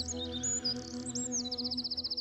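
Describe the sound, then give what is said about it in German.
A robin sings in high, thin, warbling phrases that end in a rapid run of repeated short notes, heard over a steady low hum. “Rotkehlchen hat flüssig Gold in sin Kehl. Hörst du dat? Gorgelgold.”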